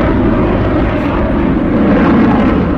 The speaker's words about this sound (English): That's a Eurofighter Typhoon just there.